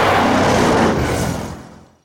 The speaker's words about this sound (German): Alle sprangen in das Feuerwehr-Spezialfahrzeug. Jetzt geht aber die Post ab, Freunde. Und Vollgas voraus.